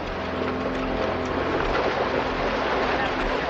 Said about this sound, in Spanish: De nuevo cruzan el río sumergiéndose con sus caballos.